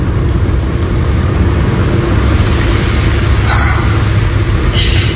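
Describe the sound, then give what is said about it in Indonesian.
A car drives at night on a road from Salatiga to Bandung, making a steady, loud rumble of engine and road noise that continues unbroken throughout. “Ini memang pertama kalinya aku menyetir dari Salatiga menuju Bandung.”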